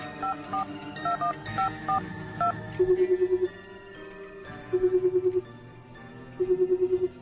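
A telephone dialed from a hotel room: a quick run of touch-tone beeps at varying pitches, followed by three evenly spaced bursts of warbling ring tone, loud and clear with no talk.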